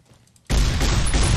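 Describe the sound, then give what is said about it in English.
Shotgun gunfire erupts in a Fallout video game gunfight in a hotel hallway. A quiet start gives way to an abrupt, loud, dense barrage of blasts that runs without a break to the end, with no clearly separate shots. “we are just sweeping the hallway with a shotgun. It's all bloody and gory and fun. Having a really gory gunfight while arguing about a hat.”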